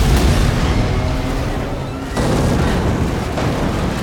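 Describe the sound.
A loud explosion as an armored vehicle blows up during a gunfight in a street battle, throwing flames. It is a dense, sustained roar that fills the whole clip, dips briefly midway, then swells again.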